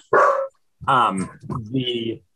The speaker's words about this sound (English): Of course, my dog.